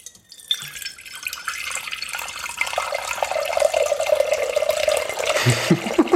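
Water splashes into a container during a water-measuring game, making a steady pouring stream with a bright, gurgling, resonant tone. It gradually grows louder and fuller, with no talk over it.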